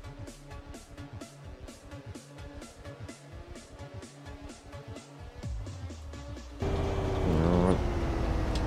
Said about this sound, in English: Someone's streaming Bus Simulator.